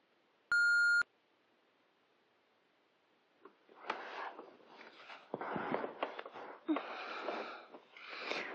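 A voicemail beep: one steady electronic tone lasting about half a second, loud and alone, followed after a few seconds of quiet by softer breathy, rustling sounds.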